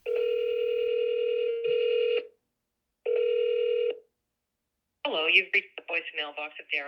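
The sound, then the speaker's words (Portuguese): A phone call rings out as steady electronic ring tones repeat a few times with short gaps between them. A person then begins speaking on the line. “Comecei então a fazer ligações telefônicas.”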